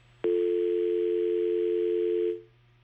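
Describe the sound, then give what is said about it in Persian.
A telephone tone sounds after a phone-in caller is disconnected: a click, then one steady, unbroken tone that holds for about two seconds before it cuts off. “فکر کنم تماس ما با شنونده ما قطع شد”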